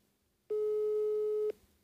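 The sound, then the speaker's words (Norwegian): Telephone ringing tone while calling someone: a single steady, mid-pitched electronic tone lasting about a second, starting and stopping abruptly against near silence. “Vi kan jo bare ringe og se, og hvis hun ikke tar den, så tar hun ikke.”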